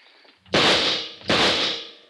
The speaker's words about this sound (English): He's down. Yeah. That second shot was dead center.